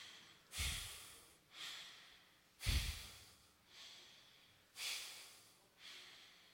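Deep, forceful breaths from a guided psychedelic breathing exercise: six rushing breath sounds in alternating strong and softer pairs, the stronger ones carrying a low thump, with quiet gaps between and no talk.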